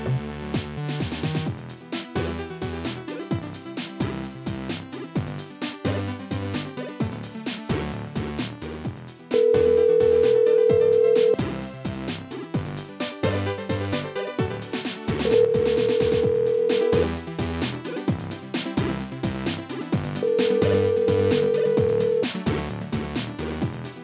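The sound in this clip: Telephone ringing on an outgoing call to a landline: three long, steady tones at even intervals that sound over continuous background music.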